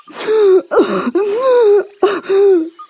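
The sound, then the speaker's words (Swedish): A story character sobs and cries in four wavering, voiced wails with gasping breaks between them, each cry sliding downward in pitch at its end. The crying is loud and heard alone. “Till deras förvåning så började Trehorn gråta.”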